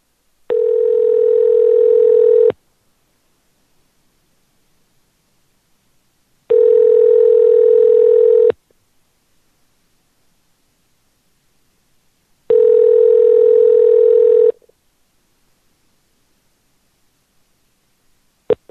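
A telephone line tone plays while calling a number back: three steady buzzing tones, each about two seconds long, separated by silent gaps of about four seconds, with no talk over them.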